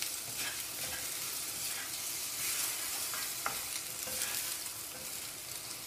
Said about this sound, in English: Okay, I will not use metal for this. I will use my bamboo spatula.